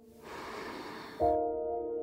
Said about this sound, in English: Let's do it again. In with your breath, filling yourself up, and then letting it go.